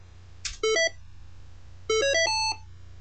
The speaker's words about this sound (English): beep beep, this means that the debug is on.